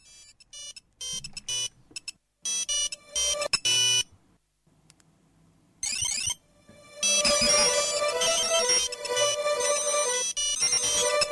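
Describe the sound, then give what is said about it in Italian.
A music track opening with an electronic, ringtone-like beeping melody, choppy tonal bursts separated by gaps, before a fuller, denser electronic arrangement takes over in the second half. “L'inizio... vi ricorderà sicuramente una suoneria del cellulare.”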